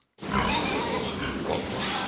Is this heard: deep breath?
no